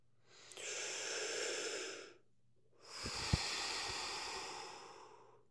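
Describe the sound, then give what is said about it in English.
Deep breathing during a guided relaxation: two long, airy breaths, each a couple of seconds of steady soft rushing with a brief pause between, heard alone with no talking. “I want you to basically close your eyes and take a deep breath in.”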